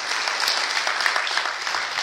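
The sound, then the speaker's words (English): Church audience at Bethesda Baptist applauding to welcome a speaker: a steady wash of many hands clapping, bright and even, holding at moderate loudness from start to end with no talk. “We'll give him a cheer to get him up here.”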